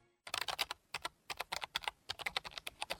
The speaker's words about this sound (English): Hear that? That's the sound of a computer on the internet.